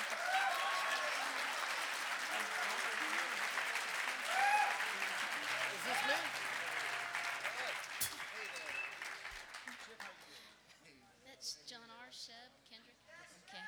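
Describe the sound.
Audience applause and cheering welcome a guitar player invited up on stage, a dense, steady clapping that gradually thins and fades as people begin talking.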